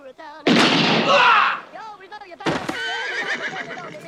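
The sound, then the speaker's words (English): Gunshots fired into the air, two sharp loud blasts about two seconds apart, each trailing a rough roar, with voices heard around them. “Shoot in the air. Shoot in the air. We all shot in the air.”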